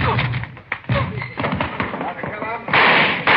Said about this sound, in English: Shots